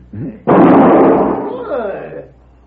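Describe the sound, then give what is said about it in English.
A single loud gunshot rings out as a man's gun is shot from his hand. It cracks sharply and then decays over about a second and a half, with a brief voice just before it. “He's good with guns, eh? Very good, senor. You just shot the gun from my hand.”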